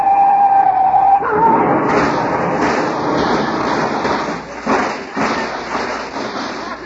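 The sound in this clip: A police siren in a chase sounds as a short wavering tone at the start, then gives way to a rough rumbling roar broken by several dull thumps.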